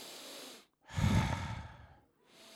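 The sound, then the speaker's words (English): A person standing in a kitchen takes one long, deep breath to show proper breathing. It is loud and full at the start and tapers off slowly, with softer breaths just before and after it. “I'm standing in the kitchen breathing correctly for the first time in my life. So I'm standing in the kitchen going,”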